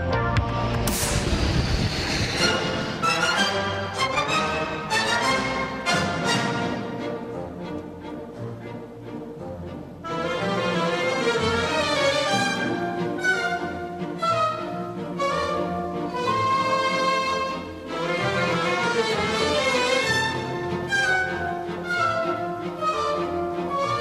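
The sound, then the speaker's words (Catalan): Classical orchestral music by Johann Strauss plays loud and continuous, with layered, sustained melodic lines and no voices. “Avui parlem de Viena i sona música clàssica, en aquest cas Johann Strauss”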